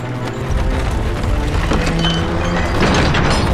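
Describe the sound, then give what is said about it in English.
Horse-drawn wagons roll out through city gates. Hooves clop and wheels and wood creak in a dense, continuous clatter that stays steady throughout. “Much and Jack are hiding nearby, and when the wagons leave the city gates, they jump out and close the gates.”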